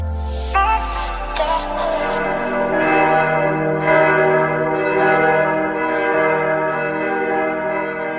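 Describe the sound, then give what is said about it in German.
Church bells ring in Germany to call Christians to prayer, with many overlapping strikes building into a loud, sustained, resonant peal that holds steady throughout. “So klingt Deutschland, wenn Christen zum Gebet gerufen werden.”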